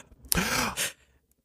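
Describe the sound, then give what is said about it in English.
A sharp inhale before speaking: one quick, breathy intake of air, brief and moderately loud, then silence. “You inhale to say something.”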